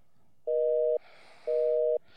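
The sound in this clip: Telephone busy signal: two identical steady beeps of about half a second each, separated by a pause of the same length, loud and alone.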